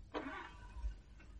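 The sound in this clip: A car engine cranking but failing to start, a short, grinding starter burst followed by a pause and a second, fainter attempt, quiet overall.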